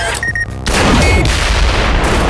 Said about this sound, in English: The door splintered inward as the blast obliterated a small portion of the jet.